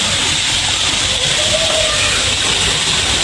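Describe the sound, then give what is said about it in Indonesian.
Water boils on a kerosene stove, giving off a continuous, even hiss with a low rumble beneath it and no breaks. “Yang cepat mendidihnya. Kalau yang ini kompor minyak tanah, ini kurang bagus.”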